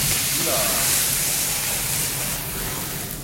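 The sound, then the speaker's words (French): Pasta drained with a skimmer straight into a pan of hot olive oil for a Calabrian dish sizzles as a loud, steady, dense hiss that flares and slowly eases over a few seconds. “À peine le temps d'égoutter avec une écumoire directement dans la poêle avec euh, l'huile d'olive.”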